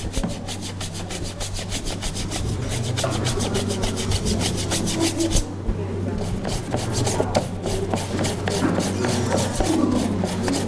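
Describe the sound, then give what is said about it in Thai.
Scrubbing an item that has soaked in a water mixture to see whether the dirt comes off: fast rhythmic rasping strokes, steady and fairly loud, with a short pause midway and a low hum underneath. “ผสมกับน้ำจริงๆแล้วเราต้องแช่ไว้สักครู่หนึ่งเหมือนที่คุณครูแช่ไว้เมื่อกี้นะคะลูกแล้วก็ทำการขัดเอาขัดดูก่อนว่าออกไหม”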